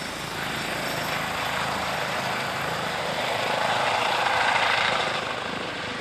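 Steady, broad roar of an emergency doctor rescue helicopter in flight. It holds an even level, swells a little louder near the end, then eases slightly. No voices.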